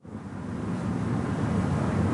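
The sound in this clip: Wind blowing through a gnarled black willow tree on a windy May morning: a broad steady rush that swells in over the first moments, then holds loud and even with no voices.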